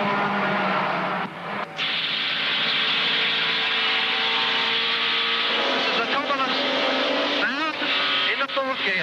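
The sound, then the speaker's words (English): Racing car engines roar in a Supercars esports racing video game as a Wilmington Falcon overtakes down a mountain straight. A sustained engine drone plays throughout, with wavering, shifting engine tones toward the end. “This is down Mountain Straight. And we're now overtaken by the Wilmington Falcon.”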